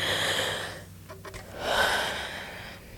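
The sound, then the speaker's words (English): A deep breath taken by a nervous person: two long, breathy swells of air separated by a short pause, moderately loud and heard alone. “Let's take a deep breath”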